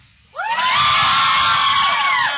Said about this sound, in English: If you think he will, cheer when I say 3, 2, 1,